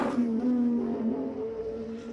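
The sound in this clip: Charles Leclerc's Formula One car as it starts its lap, a steady, fairly quiet engine drone with a sustained tone that wavers slightly in pitch and never cuts out.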